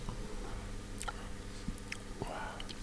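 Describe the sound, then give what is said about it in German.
Sipping a Belgian beer brewed in 1986, heard as a few soft slurping and swallowing clicks over a steady low background hum. “Für mich ein absolutes Highlight, ein Bier von 1986 zu trinken. Ich hatte das letzte Mal das Vergnügen, eins von 1996 zu trinken. Ich muss erst einfach mal einen Schluck nehmen.”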